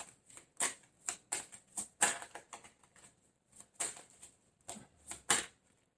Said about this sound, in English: Let me have another card for Capricorn for February.